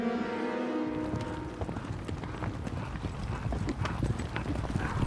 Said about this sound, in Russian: со свитой скачет на лошадях по полю.